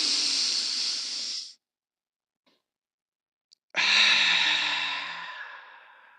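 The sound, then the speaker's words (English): A deep breath is taken as two long, airy rushes of breath separated by near silence, the second louder and longer and slowly fading away. “take a deep breath. Yes, breathe.”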